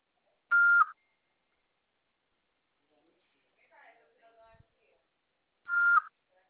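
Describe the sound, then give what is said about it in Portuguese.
Two short, steady beep tones from a phone voicemail system, each under half a second and several seconds apart, with a faint, brief sound between them. “Sua chamada está sendo encaminhada para a caixa de mensagens e estará sujeita a cobranças após o sinal. Após o sinal, fale o seu nome e deixe o seu recado.”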